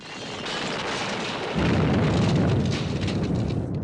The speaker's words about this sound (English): What was that? Orbital bombardment. A fleet is attacking Apophis.